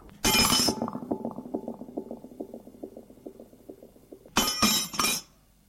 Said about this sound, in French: Il se déchausse et avec sa chaussure, donne un coup à la vitre.